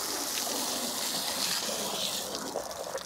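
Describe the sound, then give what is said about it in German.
Steady hiss of water spraying from a hose onto an elephant being showered to cool off. The spray is continuous and even throughout, with slightly more uneven splashing near the end. “Und es geht weiter, das Elefantenduschen”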